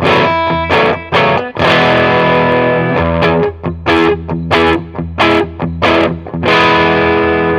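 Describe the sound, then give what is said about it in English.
An electric guitar driven through an EHX Soul Food overdrive pedal, a more affordable Klon-style clone, at moderate gain: loud, crunchy strummed chords ringing out between brief rhythmic stops, with no talk. “And EHX have done their own version, a bit more affordable. Yep. Sounds... the Soul Food. Pretty good. So you notice not as high gain straight away.”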